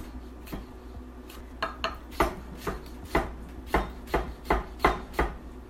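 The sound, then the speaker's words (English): A knife chops strips of food into quarter-inch cubes, making many crisp, sharp taps that start sparse and settle into a quick, fairly regular rhythm, with no talk. “Maybe I should have cut the strips a little narrower. This one is skinnier, so this is more quarter inch by quarter inch cubes.”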